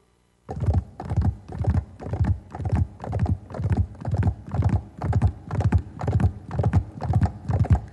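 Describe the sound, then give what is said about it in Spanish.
A horse's hooves clip-clop in a steady, even rhythm of many crisp beats that start abruptly after a moment of silence and continue evenly without voices. “Corre, corre caballito, corre, corre sin parar, corre, corre y en el campo te veremos galopar.”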